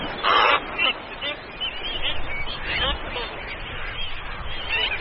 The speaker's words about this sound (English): These 7-month-old black-footed albatross chicks have recently been abandoned by their parents, and now, driven by hunger, it's their time to get airborne.